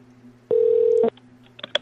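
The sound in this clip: A telephone number being dialed: one steady keypad tone lasting about half a second, followed by a few faint clicks.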